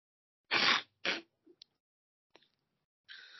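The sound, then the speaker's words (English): A few sharp, breathy inhales sound against silence. Two quick ones come close together, then a couple of tiny clicks, and a last short intake at the end. “My bad, just took a few inhales.”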